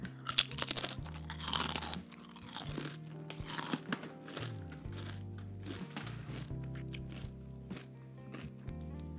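Crunching and chewing of natural potato chips seasoned with Swiss alpine salt and cooked in rapeseed oil, taken from a large bag; many crisp bites and chews come in quick clusters, fairly faint and without talk.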